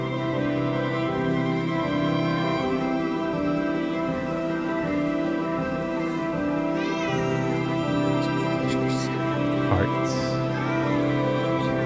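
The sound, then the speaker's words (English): Cats meowing: a few rising, wavering meows over a steady, sustained droning tone. “Cats flying over our heads. It's the second coming of the cats.”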